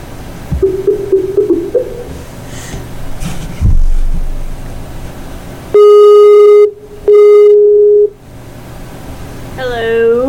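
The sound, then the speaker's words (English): A telephone call is placed, with two long, steady ringing tones on the line that follow a stretch of background noise and talk; a voice comes in at the end. “So we're going to give her a call.”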